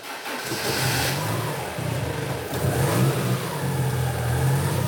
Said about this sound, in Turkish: Marşa basabilir miyim?